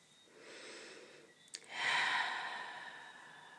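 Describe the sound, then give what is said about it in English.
One person takes a deep breath alone: a soft, airy inhale is followed, after a brief catch, by a longer, louder sighing exhale that slowly fades. “It's always beautiful to take a deep breath. I love taking deep breaths.”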